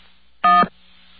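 A telephone keypad DTMF tone from pressing 1 on an automated phone menu: a single short, steady electronic beep heard on its own over a faint line hum.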